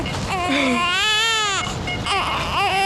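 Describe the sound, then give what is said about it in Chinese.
A baby cries loudly and without pause, a long wavering wail that rises and falls in pitch, then breaks off briefly before a shorter cry. “不哭了，不哭了啊！妈妈忙完就过来找你了啊！”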